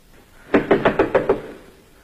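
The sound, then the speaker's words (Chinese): Someone knocks on a door in a dramatized scene of a classic tragedy. Six quick, even, firm knocks come in a steady rhythm, heard alone against a quiet background. “这时传来敲门声，是雅各的妻子艾米莉夏。”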